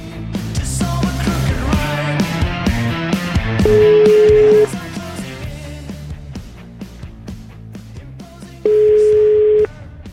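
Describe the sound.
A telephone tone sounds as a call is placed: two loud, steady, unbroken tones, each about a second long, rise over busy background music.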